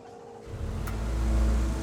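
A car engine starting: a soft click, then a low rumble that sets in and holds steady at a fairly quiet level.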